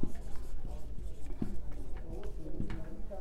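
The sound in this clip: Marker or chalk strokes on a board, several scratchy strokes spread across a few seconds over a low background hum.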